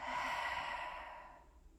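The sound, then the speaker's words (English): A strong breath out, a soft breathy sigh that starts full and fades away over under two seconds, alone and quiet. “So take a nice deep breath in, strong breath out.”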